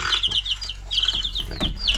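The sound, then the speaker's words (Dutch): Young chicks cheeping, five kept indoors: many high, thin peeps come in quick, overlapping bursts at a steady, busy pace, with no talk. “Ik heb 5 kuikens in huis. Ja. Heel schattig. 5. Heel schattig. Ik heb die opgenomen er straks.”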